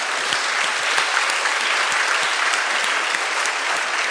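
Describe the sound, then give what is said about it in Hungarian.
Audience applause for schoolchildren being called up by name and school: a thick, even roar of many hands clapping that holds steady and loud from start to finish. “És akkor most lehet őket megtartsolni.”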